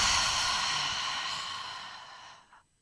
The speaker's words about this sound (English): first what I'm going to need you to do is breathe deeply. Hold it. And release.